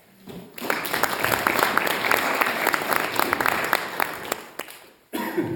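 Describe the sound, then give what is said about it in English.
An audience at a church pastors and leaders gathering applauds visiting students: a sustained wash of clapping that tapers off near the end, then cuts to quieter sound. “So we welcome all of our PALBC students who are with us today. Can we put our hands together for them?”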